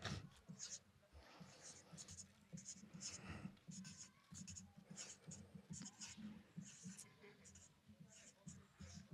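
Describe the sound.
Pen or pencil scratching on paper as someone writes out a long word, a faint run of many quick strokes in an irregular rhythm, with people talking quietly underneath.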